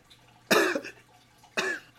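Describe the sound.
Two short, harsh coughs about a second apart from one person, each a sharp burst that quickly trails off, with quiet between them.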